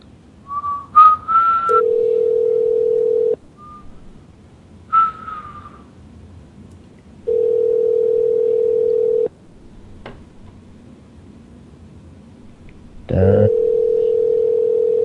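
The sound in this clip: Telephone line tones when calling an anodizing company's phone system: short whistle-like higher tones, then a steady held mid-pitched tone that returns three times, separated by quiet gaps, with a brief noisy burst before the last one.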